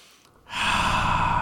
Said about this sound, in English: Let's breathe.